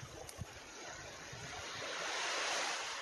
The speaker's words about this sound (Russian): Интересно, это отлив. Такой широкий пляж.